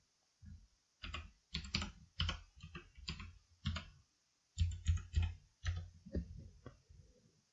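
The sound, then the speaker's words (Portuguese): Typing on a computer keyboard: many quick clicking keystrokes in irregular bursts separated by short pauses, fairly faint, with no talking. “deixa eu digitar aqui.”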